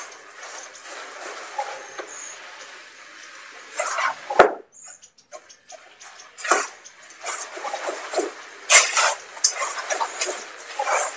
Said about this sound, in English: I'm just going to hand mix it all up with the spatula in just the mixing bowl.